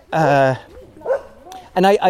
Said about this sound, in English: Hey, doggy, you've got a ball in your mouth.